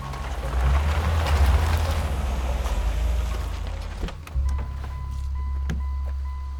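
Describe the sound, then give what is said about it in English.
A car pulls up and parks: a steady, low engine rumble that briefly dips, then settles into an even idle, with a few faint clicks. “Roland, at the wheel of his car, switches his headlights on full beam and parks near to William, who's tinkering with his truck engine.”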